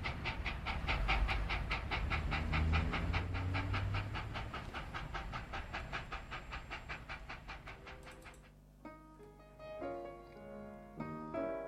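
Train sound effect of moving between carriages: a rhythmic, chugging clatter of steady repeated pulses that gradually fades. Soft piano notes take over near the end.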